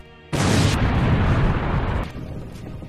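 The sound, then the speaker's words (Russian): A loud, destructive explosion as a sacrificial altar collapses: a sudden blast erupts into a dense, roaring rumble that holds for about two seconds, then drops to a quieter, lingering rumble. “С громким и разрушительным взрывом весь жертвенный алтарь рухнул.”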